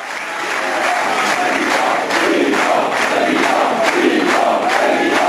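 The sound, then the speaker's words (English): A crowd chants for François Fillon after his landslide win of the centre-right Republican Party nomination, the massed voices rising in a loud, repeated rhythmic pattern that swells and continues steadily. “That was the sound of him winning the nomination for his centre-right Republican Party by a landslide. As the crowds chanted Fillon for President,”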